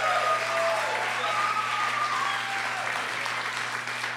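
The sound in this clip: An audience gives sustained applause welcoming a performer to the stage, a dense, loud wash of clapping that continues throughout and eases slightly toward the end.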